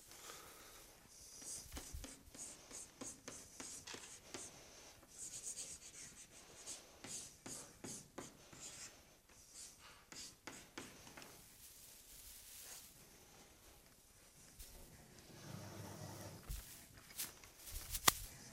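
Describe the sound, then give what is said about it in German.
Faint scratchy strokes of writing on a board during a programming lecture, a series of short rasping bursts with pauses between them and no talking. “hier schreibe ich einfach nochmal das Gleiche hin, damit ich es dann da oben wegwischen kann.”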